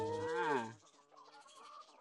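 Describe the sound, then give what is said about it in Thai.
Chickens at a laying-hen and duck farm clucking around people feeding them: one loud, drawn-out call, then fainter scattered clucks. “ถ้ามาฟาร์มเป็ดไข่ไก่ไข่อารมณ์ดีเนี่ยน้องๆก็สามารถที่จะมาให้อาหารน้องไก่ได้น้องไก่ก็จะมาล้อมเราแบบนี้เลยนะครับ”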